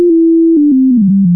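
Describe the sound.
A smartphone light-detector app sounds a tone signalling that no light is present. It is one loud, continuous electronic beep that steps gradually down in pitch over about a second and a half, with faint clicks along it.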